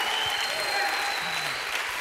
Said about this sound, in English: Come on, give the Lord a hand clap. I mean it. Give Jesus a bigger hand clap. He deserves it.